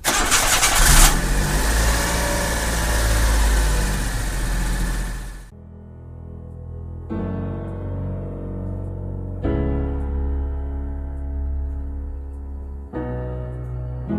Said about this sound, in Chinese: 引擎吹落去。